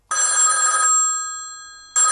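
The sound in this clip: A telephone rings again with a bright, high electronic ring. A loud burst fades into a slowly decaying tone before a second burst starts, with no voices.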